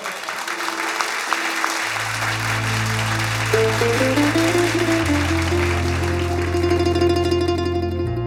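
Audience applause at a live music performance: steady, dense clapping throughout, with music carrying deep sustained bass notes and a melody entering under it after the first couple of seconds.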